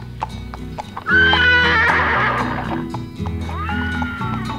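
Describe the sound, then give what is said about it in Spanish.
A white horse whinnies in a long, loud, wavering neigh, then gives a shorter second neigh, with clip-clop of hooves beneath. “porque el caballo blanco que trae el esclavo es el regalo por sus 8 años. Sin temor se sube al animal. Ha visto montar a los llaneros. ¡Señor amo! ¡Tenga cuidado con ese animal!”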